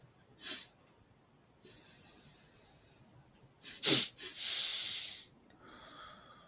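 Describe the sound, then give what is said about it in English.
Taoist double breath in Qigong, with two inhalations and one exhalation through the nose. Quick, sharp nasal sniffs alternate with longer, airy, hissing exhales, repeated a few times, fairly soft and with no talking. “so I take the two breaths in through my nose and exhale through the nose.”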